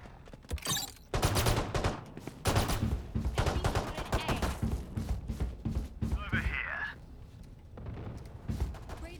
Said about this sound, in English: Ooh, that mid? Yeah, it's the other guy shooting mid.